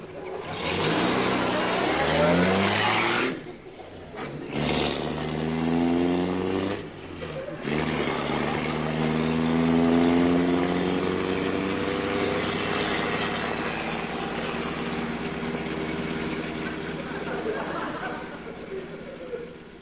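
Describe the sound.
A car engine revs and drives off, its whining tone rising and falling in long sweeps over a steady drone, broken by a few brief dropouts early on.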